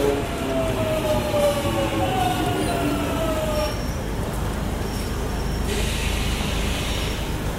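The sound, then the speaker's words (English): A train arriving at a platform with a steady loud rumble of wheels on rails and thin squealing tones that fade as it rolls in. “Train now arriving on platform 2.”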